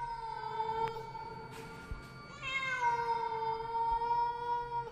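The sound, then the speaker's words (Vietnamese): A stray cat meows from the bushes: long, drawn-out, wailing cries with a clear harmonic tone that shifts in pitch partway through. The calls are loud and continuous, with no other sounds. “thì bất giác có tiếng con mèo kêu lên, nghe rát cả ruột.”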